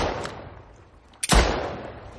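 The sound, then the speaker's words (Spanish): A single pistol gunshot fired blindly in fog near a shore: one sharp, loud crack breaks a quiet ambience, followed by a decaying rumbling tail. “dispara a tientas”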